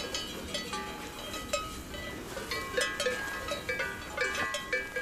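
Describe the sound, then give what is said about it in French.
Cowbells clank on a livestock herd while someone walks through it, with many irregular, overlapping metallic rings and knocks at a steady moderate level and no talking. “Nous marchons au milieu du troupeau.”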